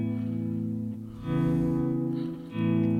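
A bass guitar runs through an effects pedal with its attack turned down and its sensitivity raised. A few sustained, warbling notes swell in, each with a chorus-like shimmer and some distortion.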